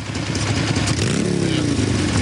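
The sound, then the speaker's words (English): A huge red motorbike pulls up and parks at a biker bar, its engine rumbling loudly and steadily, then revving with a pitch that rises and eases off over the final second. “someone on a huge motorbike pulls up and parks at a biker hangout beneath a wooden sign reading Silver Creek Bar”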